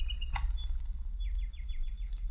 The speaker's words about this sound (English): I found this toy. A walking, chirping bird. You see, it's still good.